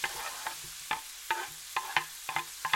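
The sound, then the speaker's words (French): Diced apples go into a pan of sizzling, nearly caramelised onions and are stirred, giving a series of sharp scraping taps from a utensil over a low sizzle. “Donc les oignons ont pris de la couleur. Je vais pouvoir ajouter la brunoise de pommes.”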